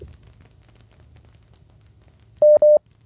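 Two short telephone tones at the same steady pitch beep in quick succession as a listener's call is connected, following a few seconds of low, steady hum.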